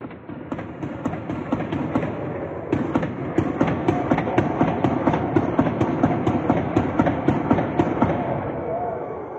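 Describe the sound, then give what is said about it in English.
Gunshots ring out during a shooting as people flee, with many sharp cracks in rapid succession. Voices and commotion sound beneath them. “We are going to play some video about what it was like whenever the shooting broke out. So it's a sensitive warning. If you have kids or anything like that, make sure they're not in the room for this. Let's go ahead and take a listen to what it was like on the ground whenever the shooting broke out.”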